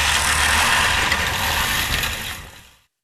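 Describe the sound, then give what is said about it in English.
A human-powered push lawnmower whirs and rattles with a dense, steady mechanical clatter that holds for a couple of seconds, then fades away to silence; no one speaks. “The human-powered lawnmower.”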